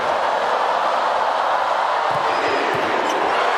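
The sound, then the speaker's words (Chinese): Volleyball serve ace by Vargas in a match against China, a brief, muffled ball impact nearly buried under the constant loud roar of an arena crowd. “巴尔加斯发球直接得分，第一次发球时速超过了100”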